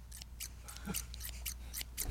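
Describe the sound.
Scissors cutting a strip: a quick series of crisp, faint snips in a steady rhythm, with a slightly louder knock at the very end.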